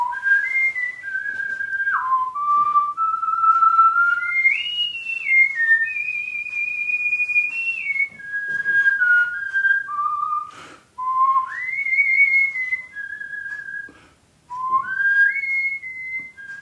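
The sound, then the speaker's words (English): A man whistles the jingle from a bank's television advertising campaign alone, a clear, bright melody of held notes, quick slides and short phrases broken by a few brief pauses. “I ended up doing the whistling for the TSB Bank television campaign, which has become one of the great standards. Oh, great! One of the great standards. Let's hear the tune.”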